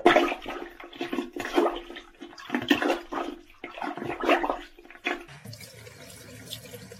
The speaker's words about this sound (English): Yes, it is working. The tub is draining now.